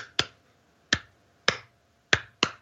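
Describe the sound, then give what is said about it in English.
A person imitates two rocks tapping together in a rhythmic pattern with five sharp, dry clicks. The clicks are unevenly spaced, with the last two close together, and no other sound is heard. “I just hear these rocks tapping together, and it's just clapping, and it's doing this like rhythmic pattern of these two rocks”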